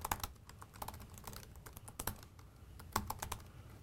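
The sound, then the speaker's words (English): Typing on a computer keyboard, a faint, steady stream of rapid plastic key clicks with irregular rhythm and occasional sharper taps, with no talk. “I'm going to let you type through this and stop bombarding you with questions for the sake of time.”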